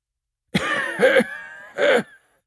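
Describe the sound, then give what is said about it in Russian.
A man coughs in three harsh bursts, the last one separated by a brief pause. He cannot hold the coughs back despite trying to. “Но он все равно боялся разбудить ее своим кашлем.”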